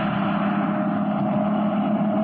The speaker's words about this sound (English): there's a car coming along the road.